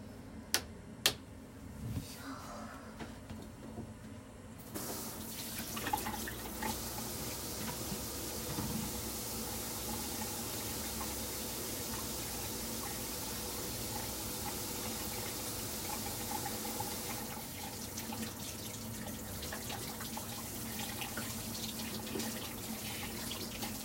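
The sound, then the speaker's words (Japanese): Hands washed under a running water tap: a few faint clicks, then a steady rushing stream of water that continues evenly to the end. “手洗って”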